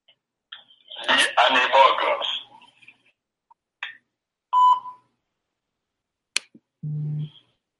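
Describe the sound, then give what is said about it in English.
An automatic phone dialer call leaving a pre-recorded voicemail: a short burst of a voice, a few scattered clicks, a clear electronic beep, another click, then a low buzzing tone near the end, with silence between. “it leaves a voicemail for you, a pre-recorded voicemail, so you can move on to the next call ASAP.”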